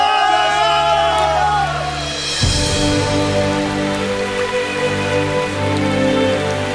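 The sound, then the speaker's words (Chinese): Rain falling in a steady, even hiss that fills the whole clip, mixed with sustained tonal notes underneath. “我好像听到雨声啊。 哎，真的下雨了”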